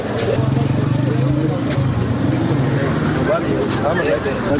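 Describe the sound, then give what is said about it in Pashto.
Traffic at the Bara bus station in Peshawar: a steady, dense rumble of bus and vehicle engines, with voices mixed into the noise throughout. “قدرمنو اوریدونکو اوس تاسې رالو د باړې د بسونو اډې ته”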